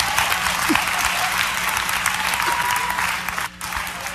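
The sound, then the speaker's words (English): Women clapping fast together, a dense, rapid patter of applause that holds steady and loud throughout, dipping briefly just before the end. “Clap, ladies. Clap fast.”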